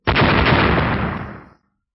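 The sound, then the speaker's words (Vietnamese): A single heavy explosive blast of bursting silver lightning at the feet of a giant, a loud, dense roar that starts abruptly and holds for about a second and a half before cutting off, with no voices. “Vài tiếng nổ vang lên”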